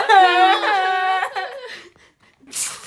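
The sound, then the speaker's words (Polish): A woman crying, with high, wavering whimpers breaking into shaky sobbing bursts. They trail off into quiet, then a brief breathy sniff follows. “Słyszysz, że ona płacze przez ciebie?”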